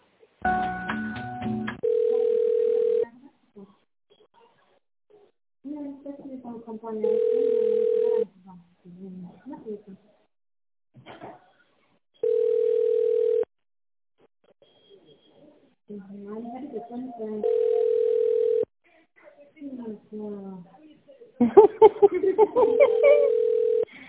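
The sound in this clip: Telephone ringback tone sounds while a call is being transferred: five steady mid-pitched beeps of about a second each, evenly spaced, with muffled voices and other sounds filling the gaps between them.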